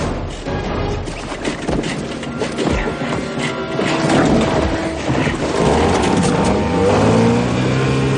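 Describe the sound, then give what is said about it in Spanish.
A motorboat engine starts and roars as the boat speeds away, its loud, rough mechanical noise building into a strong revving whine that climbs in pitch toward the end. “Al fin arranca el motor y vira el timón haciendo que Jack choque contra el barco y se caiga.”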